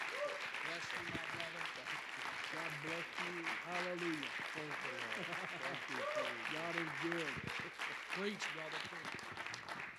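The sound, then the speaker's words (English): Audience applauding at a church service to welcome a missionary: continuous clapping with voices calling and cheering over it, sustained for the whole stretch. “would you stand up and put your hands together and welcome this incredible missionary with us tonight?”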